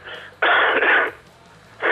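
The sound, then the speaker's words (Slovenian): A patient coughs during a doctor's examination: a few harsh, breathy bursts, a softer one first, then a loud, longer cough, a pause, and another strong cough beginning at the end. “Ej, malo tak kašl je pa res malo čuden. A lahko še malo zakašljate?”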